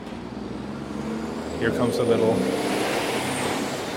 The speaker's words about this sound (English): here comes a little cement truck